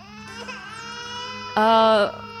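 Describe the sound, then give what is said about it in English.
An Aoi Salt creature mimics a crying baby: a high, wavering harmonic wail that whimpers on, then bursts into a louder, brighter cry before easing back. “Why does the Aoi Salt sound like a crying baby? Oh, it's trying to lure you in.”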